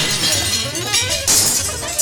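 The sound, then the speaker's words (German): A glass window shatters under thrown stones, shards falling: a dense wash of bright crunching and tinkling glass with a sharper burst partway through and another near the end. “Die Steine, die sie geworfen hatte. Das klirrende Glas. Die fallenden Scherben erschreckten die Menge.”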